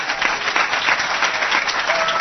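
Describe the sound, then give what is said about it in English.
Audience applause fills the whole stretch: dense, steady clapping at an even loudness with no voices on top. “Brad Sumrock, how about a round of applause?”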